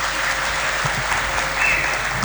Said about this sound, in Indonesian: Tepuk tangan kagem beliau.